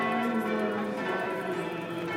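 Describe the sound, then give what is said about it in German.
Church bells at a pilgrimage chapel peal without pause, their tones blending into a dense, steady wash of ringing that overpowers prayer amplified through loudspeakers. “Das mit Lautsprechern verstärkte Gebet wird nur übertönt vom Glockengeläut.”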